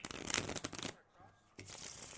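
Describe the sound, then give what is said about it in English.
A deck of playing cards is shuffled and cut: a faint, dense crackling riffle, a brief pause, then another rustling burst of cards. “All right, now we've just cut the deck.”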